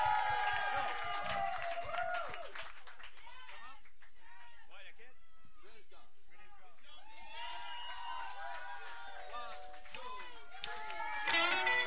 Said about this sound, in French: Alors, on applaudit tout ce monde-là.